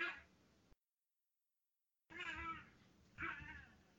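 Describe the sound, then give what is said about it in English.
Faint cat yowling from cats fighting, one of them in heat: a brief yowl, a silent gap, then a longer, wavering caterwaul that swells twice. “That's my animals fucking having Fight Club in the fuck out of the room or something. Your cats? So I was going to say, it sounds like a cat in heat.”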